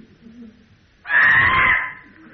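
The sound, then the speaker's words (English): A child lets out a single loud, harsh scream that holds for about a second after a quiet stretch, then fades away. “Time for another primal scream, yeah.”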